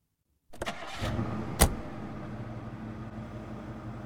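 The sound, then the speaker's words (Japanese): A Lexus convertible's engine cranks from silence and catches with a short rev, then settles into a steady, even idle. No voices are heard. “久しぶりのドライブですね。 そうだね。 このレクサスに乗るのは初めて。”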